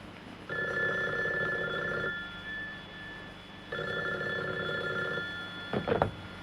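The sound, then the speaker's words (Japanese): Telephone ringing, sounding faint: two long bursts of warbling bell tone separated by a pause, followed by a brief clunk at the end. “そしてラブテレフォンはそれから毎日かかってきた。”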